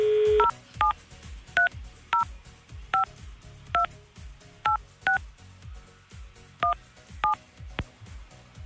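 Touch-tone telephone dialing while calling a contest entrant: a short steady dial tone, then about ten crisp two-note beeps at an uneven pace, each clear and fairly loud, with no voices.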